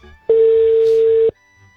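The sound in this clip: A telephone call rings out while waiting for an answer: a single loud, steady, mid-pitched ringback beep lasts about a second, then stops into near silence.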